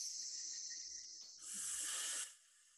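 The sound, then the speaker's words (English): A person imitates a snake during a breathing exercise: a soft, steady breath drawn in through the nose, then a louder, bright hissing exhale that holds for under a second and stops abruptly. “The others that I like too, very similar, is a snake breath. So it's that in through your nose and then it's out like a snake sound.”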